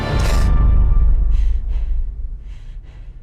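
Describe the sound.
A woman breathes hard after waking in her space station bed, with a few heavy, breathy gasps over a loud, low rumbling background that fades.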